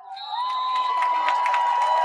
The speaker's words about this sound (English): And the Bronx cheer because we got the ready for play by the referee.